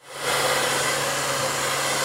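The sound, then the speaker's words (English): Blow dryers run at a Paul Mitchell hair styling school on a downtown San Diego street corner, a steady loud rushing whoosh with a low hum that swells in quickly and holds. “The blow dryers and beauty are a constant here at this street corner in downtown San Diego, where Paul Mitchell, the school, has been educating future professional stylists for 20 years.”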